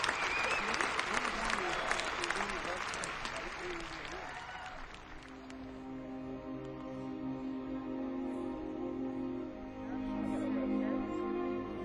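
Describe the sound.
Audience applause greets a concert and recording artist joining a guitarist and an orchestra on stage. Loud, dense clapping fills the first five seconds, then fades as sustained orchestral tones rise and carry on alone.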